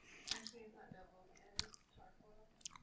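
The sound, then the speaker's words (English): Soft, faint chewing of a smoky hard-boiled deviled egg, with close, wet mouth sounds broken by a few sharper clicks and smacks spread unevenly across the moment. “Eating a smoky hard boiled egg. ASMR style.”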